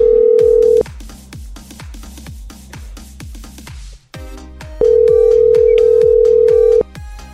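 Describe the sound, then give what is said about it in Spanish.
A telephone call is dialled: a steady tone, then a fast, even run of pulsed ringing tones, then another long steady tone. “concéntrate, se está marcando.”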